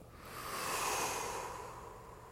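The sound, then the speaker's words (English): A deep breath drawn in and released during a guided meditation. It is one soft, continuous airy rush that swells gently to a peak and then tapers away, heard alone without talk. “Take a deep breath in, white light in and gray out.”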